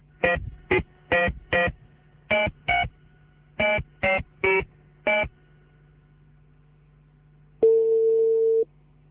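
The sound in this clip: A telephone call is dialed with a series of short touch-tone beeps in an uneven rhythm. After a pause, a single sustained, steady tone follows, heard alone.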